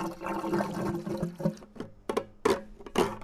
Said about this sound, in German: Damit wir nicht liegen bleiben, haben wir etwa 30 Liter Benzin mitgenommen und füllen jetzt frierend per Hand nach.